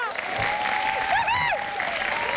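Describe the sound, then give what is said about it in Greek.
Steady applause from a group during a party-style game, with continuous clapping throughout and a warbling whistle-like tone rising and falling above it. “Ένα χειροκρότημα.”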